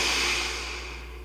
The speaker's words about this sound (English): invite you to begin breathing in through your nose. So a slow breath in